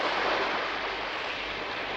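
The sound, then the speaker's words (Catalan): A foamy wave slides over beach sand with a continuous, broad rushing wash that holds at an even level from start to finish. “Una onada escumosa llisca damunt la sorra.”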